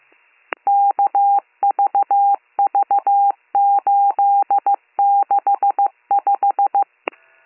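Telephone keypad DTMF tones as an emergency dispatcher dials a callback number. Many short, steady beeps come in quick runs, with a sharp click at the start and end and no voices.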